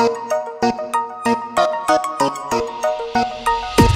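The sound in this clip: A mobile phone rings with a bright, repeating melodic ringtone of short chiming tones, its phrases pulsing in a steady, even rhythm, loud and clear with no voices over it.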